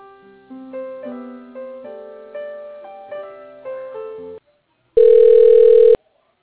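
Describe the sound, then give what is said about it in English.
Telephone tones as a call is transferred to voicemail: a series of short electronic chimes in an even rhythm, then a brief silence and a loud, steady one-second beep. “Okay, I'm going to transfer you to Sarah's voicemail.”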